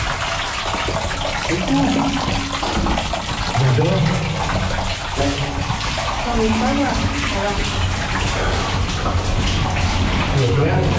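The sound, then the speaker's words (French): Hot water gushing out in a steady, loud rushing stream that continues without a break, with voices talking over it. “Attention, l'eau chaude sort de là.”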